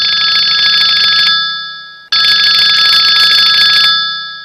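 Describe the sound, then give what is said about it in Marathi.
A telephone rings twice: each bright, steady ring lasts over a second, then fades, and the two rings are separated by a short gap. “एक minute, प्रभेचा phone.”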